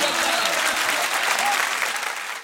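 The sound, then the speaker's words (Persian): Crowd clapping hands during a chant about Hossein, a dense, steady wash of many hands sustained through the whole stretch, fading slightly toward the end. “جانم جانم دست بزن.”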